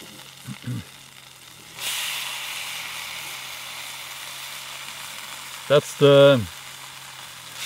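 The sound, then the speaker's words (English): Bacon sizzling in a frying pan: a steady, broad hiss starts abruptly after a short quiet opening and carries on evenly, with brief vocal sounds near the start and again near the end. “we'll get the bacon fried.”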